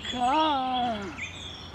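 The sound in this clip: A female superb bird-of-paradise gives her mating call: one drawn-out harmonic note that rises and then falls in pitch. A brief, higher chirp follows it, and no voices are heard.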